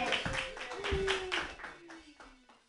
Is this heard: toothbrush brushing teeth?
no